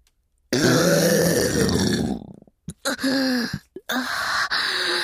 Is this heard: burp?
yes